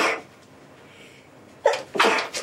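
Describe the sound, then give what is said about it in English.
A person sneezes from a pollen allergy: after a quiet, breathy stretch, a few sharp, loud sneeze bursts erupt in quick succession near the end. “The sun is shining, the birds are chirping, and the people are sneezing.”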